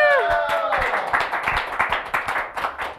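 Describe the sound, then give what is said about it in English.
A studio audience claps for the crowd after a host's call for a big hand. A short voiced sound with falling pitch opens it, then brisk, moderately loud clapping follows with individual claps standing out in an uneven rhythm. “First of all, big hand for our studio audience.”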